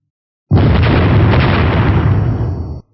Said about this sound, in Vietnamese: Một loạt tiếng nổ lớn vang lên